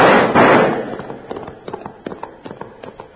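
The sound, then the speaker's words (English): Gunfire from several guns in an ambush on a rider: a loud opening burst, then many sharp, irregular cracks and pops that carry on to the end. “When the sound of hooves echoed in their ears, Rab gave the order to fire. Let him have it! Blast him out of them saddles!”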